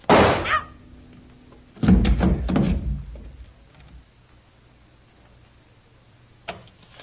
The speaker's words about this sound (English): Hey, what's going on there? What happened? Was that a shot?